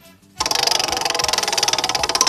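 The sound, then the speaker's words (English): A prize wheel spinning: a rapid, steady run of sharp clicks at an even pace, starting abruptly after a brief quiet moment and continuing to the end. “I'm going to take the first spin. Here we go.”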